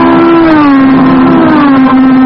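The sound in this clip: A race car sweeping round a racing course drones loudly with a steady, buzzing engine whine that holds a sustained pitch, dipping slightly a couple of times as it runs.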